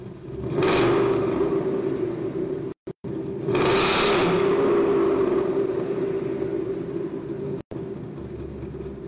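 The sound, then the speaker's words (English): An engine revving, with two loud roaring swells rising above a steady low rumble and a couple of abrupt brief dropouts in between. “Another rev, please.”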